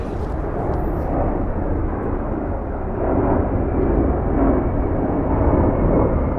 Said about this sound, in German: Wir haben es gerade gehört, das ist ein Flugzeug ziemlich dicht über uns hinweggeflogen.